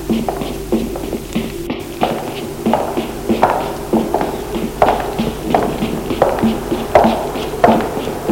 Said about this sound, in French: Et plus il court, et plus il entend les pas.